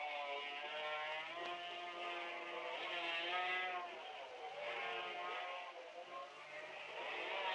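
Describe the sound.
Faint, high buzzing whine of Greaves 250cc racing motorcycles in a race, the engine pitch wavering up and down as they run.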